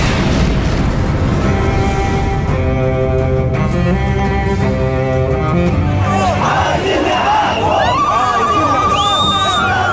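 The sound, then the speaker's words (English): A large crowd rising in revolt during Egypt's uprising roars and shouts in a dense, continuous wall of voices mixed with booms. Sustained musical tones run through the first half, and higher cries break out later. “This is the sound of a people rising.”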